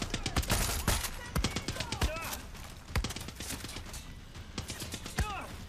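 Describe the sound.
Rapid video game gunfire: many sharp shots in quick bursts, some with short whining ricochet-like tails, loud throughout with little pause.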